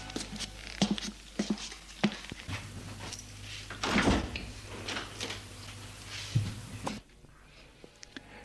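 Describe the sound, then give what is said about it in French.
A bedroom door opening: a soft rustling bump rises briefly near the middle, set over a steady low hum and light patter. “la porte s'est ouverte.”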